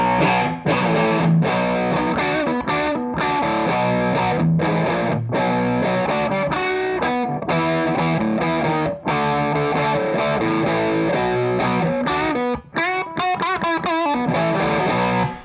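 Electric guitar through a guitar amp on a light gain setting, playing ringing chords and single notes with mild distortion, loud and continuous, with a burst of fast strummed chords near the end.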